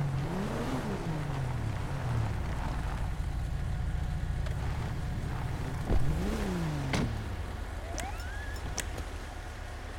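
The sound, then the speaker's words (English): Engine of a county sheriff SUV pulling up in a police role-play video game: a low, steady motor drone with two revving pitch sweeps that rise and fall, a few sharp clicks, all at a fairly quiet level. “Has pulled up in his Blaine County Sheriff SUV.”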